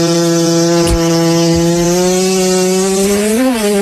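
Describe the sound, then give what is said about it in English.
A cat fart sound effect: a loud, buzzy, reedy tone holds a steady low pitch for nearly four seconds, then wobbles upward briefly near the end. A faint click comes early on, and no voices are heard. “Can he get a cat fart? You like that.”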